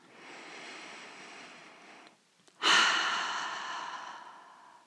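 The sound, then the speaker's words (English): A slow cleansing breath during a guided meditation, drawn in through the nose and then released through the mouth. A soft, airy inhale is followed by a brief pause and a louder, rushing exhale that gradually fades. “And take a nice cleansing breath through the nose and release it completely through the mouth.”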